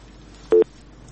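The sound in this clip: A telephone busy tone after a caller's line is cut off: one short, steady electronic tone burst, loud and clean against a faint background hiss.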